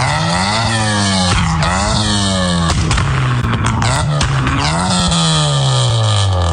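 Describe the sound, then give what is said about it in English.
A loud car engine revs repeatedly, its pitch climbing and dropping through several throttle blips in a harsh, raspy roar, the kind of sound a mid-2000s car was prized for. “Back when I was in high school in the mid-2000s, if you had a car that sounded like this,”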